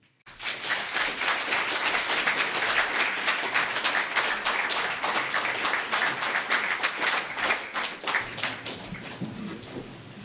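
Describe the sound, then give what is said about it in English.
Audience applause welcoming a speaker at an outdoor event in Alex Moore Park, Wellington: a dense, sustained wash of clapping that starts abruptly, holds steady and eases slightly near the end. “So I'd like to actually get you to give a warm welcome and a big hand to Darcy Nicholas.”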